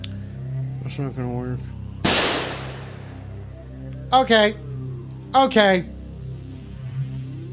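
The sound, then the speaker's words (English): A single sharp gunshot blast cracks out loudly between short bursts of a man's talk, with more speaking following it. “Stop shooting off guns, goddammit!”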